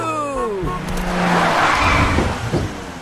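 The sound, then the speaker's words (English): A taxi driving up, with a squealing tone falling in pitch at the start, then loud rushing engine and tire noise that carries on steadily to the end. “The pig drives up in a taxi.”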